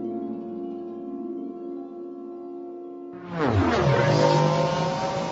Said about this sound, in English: In the blackness to the north, Orin saw two sand people rocketing away on speeder bikes.